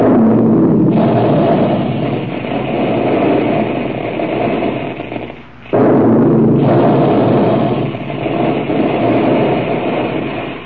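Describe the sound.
A loud, sustained roaring blast stands for Quaker Puffed Wheat and Puffed Rice being shot from guns. It fills nearly the whole stretch, drops out briefly midway, then surges back just as strongly.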